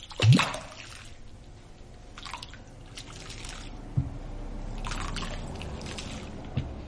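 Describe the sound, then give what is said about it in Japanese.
Thick fermenting moromi mash sloshes as it is slowly stirred in a large wooden vat: a soft, continuous liquid churning with a few sharper splashes and knocks rising above it. “この音がもろみを混ぜている音を。 なんかでもそのおけがでかいぞっていう感じはすごい音でわかるね”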